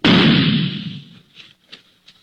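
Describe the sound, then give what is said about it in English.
A gunshot muffled through a soft pillow: one heavy, dull blast that swells and fades over about a second, followed by a few faint, small sounds. “You stick a gun into a pillow or something else soft and... Well, listen.”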